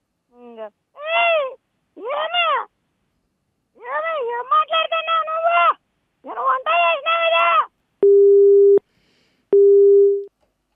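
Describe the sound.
A telephone busy tone sounds after a call is cut off: two loud, steady mid-pitched beeps near the end, following several bursts of expressive, sing-song vocal sounds from a caller.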